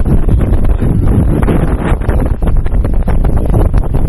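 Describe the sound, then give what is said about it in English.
Wind buffets a microphone outdoors on a boat among small islands, making a loud, continuous, gusty rumble with rustling flutter throughout. “Sorry about the wind.”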